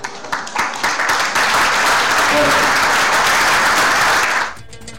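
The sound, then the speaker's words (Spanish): Audience applause given in tribute to a late poet during a cultural news program: a few scattered claps swell into dense, loud, steady clapping that lasts about four seconds before stopping abruptly. “Para él yo pido, para Edmundo Aray, un aplauso.”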